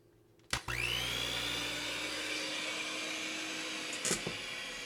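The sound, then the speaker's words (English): An electric mixer whirs on with a sharp start and quickly rises to a steady high whine while blending Good Seasons salad dressing mix. It runs evenly for several seconds, with a couple of faint clicks near the end. “All right, we're going to turn on the mixer.”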